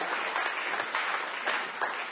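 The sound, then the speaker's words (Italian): An audience applauds for Jesus during a sermon at a worship gathering: dense, steady clapping fills the whole stretch at an even, fairly loud level, with no voices standing out. “ma facciamo un applauso a Gesù perché vuole.”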